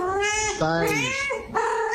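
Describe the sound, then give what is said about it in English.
A cat meows in a few drawn-out calls whose pitch wavers up and down, fairly loud and continuous across the short stretch with no clear pause between calls. “What colour is this cat?”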